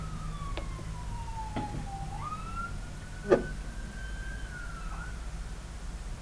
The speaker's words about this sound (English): You gotta love the classic sirens.